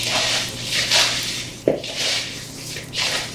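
Meatball mixture mixed with breadcrumbs in a bowl gives soft, rhythmic squelching and swishing strokes, broken once by a brief knock against the bowl.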